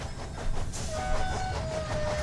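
A moving train rumbles steadily, with low rolling clatter, a hissing wash and a thin, sustained high squeal running through it.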